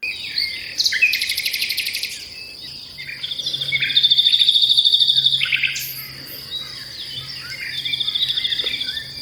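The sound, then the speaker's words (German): A nightingale sings in a sequence of high, rapid trilling and whistled phrases, loud and clear, separated by short pauses, with a faint steady low hum underneath. “Nachtigall. Okay. Ja, also in Aue und Mischwäldern, okay.”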